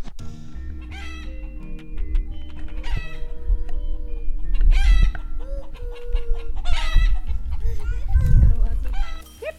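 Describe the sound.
Chickens cluck and a rooster crows on a sheep farm with yurts, the calls coming in repeated bursts under steady talking voices and low rumbling handling noise.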